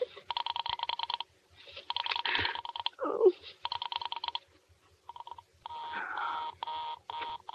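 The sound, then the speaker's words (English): Telephone tones sound as an operator rings a number. Faint electronic beeping comes in several repeated bursts separated by short gaps, with a brief low rumble between two of the bursts. “Operator, for heaven's sake, will you ring that Murray Hill 70093 number again? I can't think what's keeping him so long. I will try it for you.”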